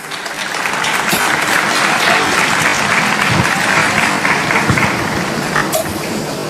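Loud, sustained applause from an audience welcoming a religious sister to share her life testimony, continuous dense clapping that stays even throughout.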